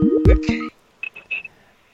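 Incoming-call tones on a radio show: a loud burst of layered electronic tones, then a few short, high, thin beeps with gaps between them.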